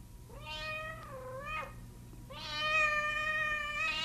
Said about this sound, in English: That a cat? All right. Cat.